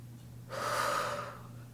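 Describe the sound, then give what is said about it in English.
One deep breath drawn in: a single slow, breathy inhale swells and then fades, with a faint steady low hum beneath it. “So I want to end this with saying, take a deep breath”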